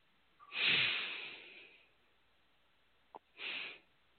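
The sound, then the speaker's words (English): During a breathing exercise, someone takes a deep, soft breath in through the nose. After a pause comes a shorter, quieter breath; both are faint and heard alone. “Now a third breath, even deeper than the one before that.”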